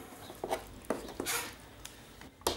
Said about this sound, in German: So, ein bisschen tun wir jetzt in eine Schüssel.